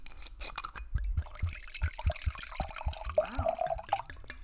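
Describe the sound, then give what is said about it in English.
White and red wine being poured from bottles into glasses, a quiet liquid trickle with small drips and a gurgling glug that rises in pitch toward the end. “So I'm going to grab my bottle of white wine, and they're going to grab their bottle of red wine, and then we're going to just go ahead and pour.”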